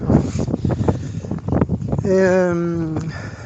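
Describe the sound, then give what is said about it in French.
Wind blows on a microphone outdoors, a low, rumbling buffet that runs throughout under a person talking, with a sustained voiced tone toward the end. “j'espère que ça va capter là, que du vent”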